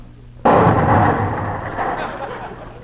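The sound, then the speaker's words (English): Gas from a match-lit burner ignites in one sudden, loud burst of flame, then settles into a broad roar that slowly fades over about two seconds. “It lights fast, don't it? Did you see the flame shoot out of there?”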